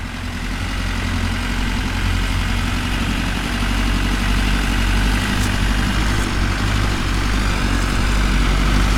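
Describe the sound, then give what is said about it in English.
Diesel engine of a truck rig rumbling as it slowly climbs a grade: a loud, smooth, unbroken low drone that holds steady for the whole stretch, with no voices. “The Grand Imperator listened to the smooth rumbling of the diesel motor as the rig slowly climbed the grade”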